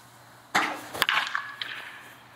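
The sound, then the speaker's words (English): A wooden baseball bat strikes a ball during a distance-hitting test: one sharp, loud crack rises above a rustling, scraping background that trails off quietly afterward. “Hammered that ball. All right, that's gonna be good exit velo.”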